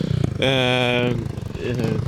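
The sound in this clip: A six-year-old boy vocally imitating a motorcycle warming up and revving: a steady buzzing, engine-like drone of about a second, set among choppy puttering mouth sounds.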